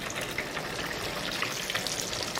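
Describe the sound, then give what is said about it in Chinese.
Sizzling of onion balls coated in crumbled steamed bun as they are deep-fried a second time in hotter oil to crisp the outside; a steady, dense crackle and bubbling, fairly soft, with no voices. “我们现在升油温，然后复炸它，让它的表皮更加的酥脆。”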